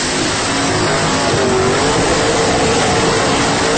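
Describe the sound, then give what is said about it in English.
A car doing consecutive tire-squealing burnouts: a loud, continuous roar of engine and tire noise that holds steady without a break throughout. “Come out of the burnout. Into another burnout. This is a consecutive burnout. There goes the tires.”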